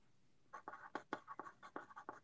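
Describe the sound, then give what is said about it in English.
Pen or pencil writing something down on paper: a quick series of scratchy strokes, faint and heard alone. “So, oh wait, let me write this down.”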